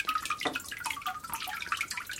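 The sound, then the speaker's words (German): Water drips from a papermaking mould laden with wet fibres, producing many small, quick plinks and splashes in an irregular patter, fairly faint and alone. “Es tut das ziemlich lang abtropfen. Es kommt schwer auf die Fasern drauf an, die ich habe.”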